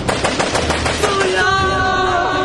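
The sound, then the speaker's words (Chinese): Loud automatic gunfire rattles in a rapid burst of repeated shots for about a second, then gives way to sustained ringing tones. “枪声一响，那就意味着事态失控了，是要出人命的。”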